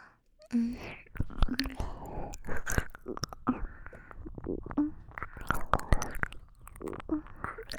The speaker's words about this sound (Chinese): 好软，含在嘴里的感觉真是棒极了，要忍住不咬一口